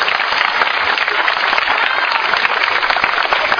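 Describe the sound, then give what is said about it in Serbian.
An audience applauds an artist whose church drawings are being presented, with a dense, steady wash of many hands clapping that stays loud and even throughout. “Aplauz jedan za Filipa koji je”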